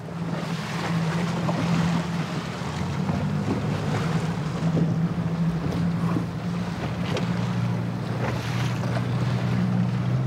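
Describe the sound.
Steady engine drone of a police boat travelling on the North Sea, a low, even hum running throughout beneath continuous rushing wind and water noise, with no talk.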